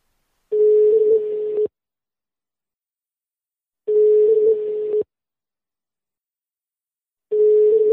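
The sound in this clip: Telephone ringback tone while calling a sanitation company: three long, steady mid-pitched beeps about a second each, separated by roughly two-second silences, the third cut short at the end, with no talk.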